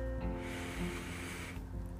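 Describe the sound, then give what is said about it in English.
A deep breath drawn in, a soft, airy hiss lasting about a second, rising over a steady, sustained musical drone that continues before and after it. “So in those moments when you find yourself scattered and you don't know what to do and you don't know what to think, just stop. Take a deep breath.”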